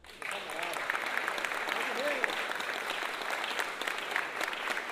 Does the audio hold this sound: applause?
yes